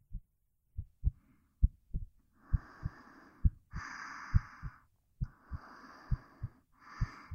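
Heartbeat heard with an ear pressed against a chest, a steady run of soft, low lub-dub thumps in even pairs, repeating many times at a calm, regular rhythm.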